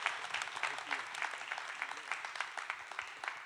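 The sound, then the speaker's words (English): A church audience in Glenwood Springs applauds to welcome a guest speaker: a steady, dense patter of many hands clapping for the whole stretch, with no voices over it. “So open up your hearts, put your hands together, give a warm Glenwood Springs welcome to John Grunewald as he comes to minister to us.”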